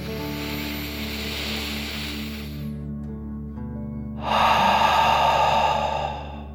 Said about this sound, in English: imagining you are breathing fire like a dragon. Ready? Deep breath, in and out.